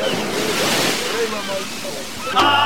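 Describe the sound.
Oars splash and slosh through water as a boat is rowed, over a continuous loud wash of waves and wind, with a sharper burst of splashing near the end.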